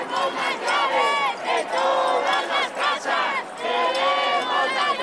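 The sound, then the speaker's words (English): Protesters angered by Spain's housing crisis chant together in unison. Their voices carry clear, tonal shouted phrases, loud and rhythmic, with brief dips between repetitions. “That's what growing anger over Spain's housing crisis sounds like.”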